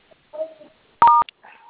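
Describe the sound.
Telephone keypad tones from dialing a number: one sustained electronic tone followed by a short second beep, with bits of speech before and after.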